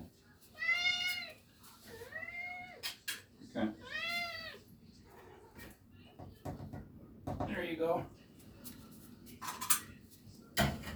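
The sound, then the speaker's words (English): A cat meows repeatedly while being fed dry cat food: several clear, rising-and-falling meows, three close together early and another later. Scattered clicks and knocks fall between them, and a voice is heard now and then. “A little dry food. This Purina Cat Chow Naturals with added vitamins, minerals, and nutrients. This stuff's pretty, they like that.”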